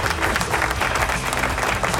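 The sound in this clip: Dense, steady applause from many hands, loud and continuous throughout with no pauses or voices above it.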